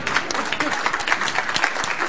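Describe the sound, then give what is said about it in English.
Audience applause for a participant, a lively patter of many hands clapping at a steady level from start to finish, with slight swells. “Hey, should we give Tim a big round of applause?”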